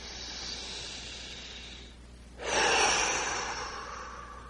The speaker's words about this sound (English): Let's take a deep breath and go even deeper.